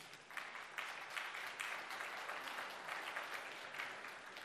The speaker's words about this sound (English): Hey, don't clap for me because it doesn't take courage to say this in this setting.